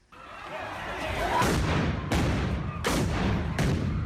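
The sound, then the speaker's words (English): Four sharp, explosive bangs from police stun grenades fired at rioters destroying municipal property in Tshwane, South Africa, each cutting through a loud, steady roar of dense background noise. “Police fire stun grenades at people destroying municipal property in the city of Tshwane.”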